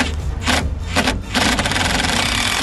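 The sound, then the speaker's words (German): A cordless screwdriver driving in the last screws: loud, buzzing motor whirs in bursts separated by brief dips, ending in a longer sustained run. “Wir haben jetzt die letzten Schrauben. Du hast den Akkuschrauber parat?”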